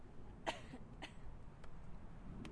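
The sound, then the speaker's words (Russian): A person giving a couple of soft, short coughs, faint and separated by a pause against a low, steady background hiss. “покашляй еще.”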